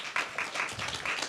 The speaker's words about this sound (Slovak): Let's welcome him among us with flower mala and with applause.